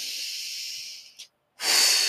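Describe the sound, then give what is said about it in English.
A deep breath drawn in through the nose as a long, steady hiss, a brief silent pause, then a strong breathy exhale as if blowing out candles. “Inhale, nose, exhale, like you're blowing out the candles.”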